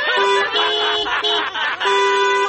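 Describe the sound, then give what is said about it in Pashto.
A car horn honks persistently in a traffic jam: long, loud, sustained blares broken by a few brief gaps. “اوهو ته دا هارن خو بند کا.”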